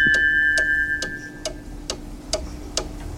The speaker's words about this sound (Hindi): studio की घड़ी की सुइयां कहती हैं 9 बजकर और 19 मिनट और 58 सेकंड हुआ चाहते हैं